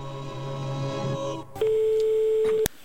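Ringing tone of an outgoing telephone call to a potential employer: a low steady hum with faint tones, then one loud, sustained single-pitch tone lasting about a second that cuts off abruptly.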